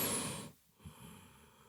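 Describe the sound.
A forceful breath blown out during a breathing exercise: one strong, breathy rush of air lasting about half a second, then a short pause and a softer, quieter breath. No talking.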